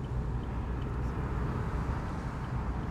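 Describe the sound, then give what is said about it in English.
Car driving on a Slovenian toll motorway, an even, continuous low road rumble with a broad hiss and no voices. “So now we are just driving. You can see there are no toll booths. We are tolling the motorway through the gantries,”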